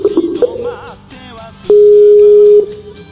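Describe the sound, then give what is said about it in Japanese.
An outgoing Skype call ringing tone: a loud, steady electronic tone holds for about a second, after a few brief, softer blips. “お、繋がるか？繋がるかな？かけてみましょう。”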